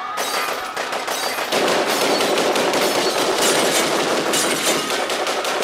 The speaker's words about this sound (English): it's Gatling gun spinning up.